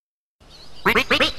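A duck quacks three times in quick succession, loud nasal honks following a brief stretch of low background hiss.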